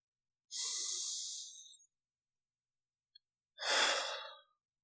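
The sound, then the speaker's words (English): A deep breath is drawn in and then let out: two long, soft, airy rushes of breath separated by a quiet pause of more than a second, with nothing else heard. “if you're feeling yourself getting anxious, getting, you know, super sad, or just having that apathy and you're just, you know, not really caring about things one way or another, just take a breath.”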